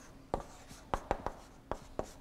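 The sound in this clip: Writing on a board produces a faint series of sharp taps and quick strokes at an irregular pace, with short quiet gaps between them.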